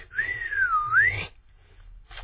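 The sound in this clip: A single admiring human whistle that dips slightly in pitch and then climbs, clear and moderately loud, followed by quiet.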